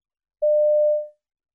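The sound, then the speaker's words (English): A voicemail recording tone: a single steady mid-pitched beep lasting under a second. It sounds alone and tapers off quickly at the end. “You have 40 seconds to leave your voicemail. Start speaking when you hear the tone.”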